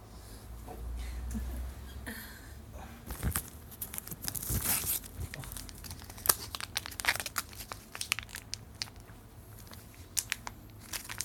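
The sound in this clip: Crinkling and tearing as something is ripped open, with many sharp crackling bursts and rustles over about eleven seconds.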